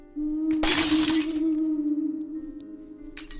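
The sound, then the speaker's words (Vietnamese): Glass shatters as belongings are smashed in a rage: one loud crash of bright, spraying fragments that decays over about a second, with a steady low hum beneath and a smaller crunch near the end. “Phong lại điên cuồng đập phá đồ đạc và liên tục nguyền rủa Mỹ Linh.”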